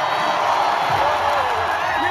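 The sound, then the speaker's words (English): Crowd cheering fills Dodger Stadium at a 2018 World Series game between the Los Angeles Dodgers and the Boston Red Sox, a dense, steady roar of many voices that holds without a break. “What you're hearing is from an electric game at Dodger Stadium in the 2018 World Series between the Los Angeles Dodgers and the Boston Red Sox.”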